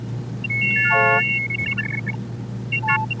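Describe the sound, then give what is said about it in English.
Optophone reading-machine tones, from a 1971 recording of a scanner turning printed letter shapes into sound: a cluster of stacked pure tones steps downward in pitch, followed by shorter scattered tone blips, all over a steady low hum. “an optophone, a kind of scanner that would look at text and turn it into a series of tones representing the shapes of the letters.”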